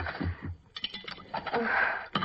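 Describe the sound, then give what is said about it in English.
Dishes clink as a table is cleared after a meal: a few light, scattered taps and clatters of crockery at a low level, with short pauses between them. “I'd best clear the table.”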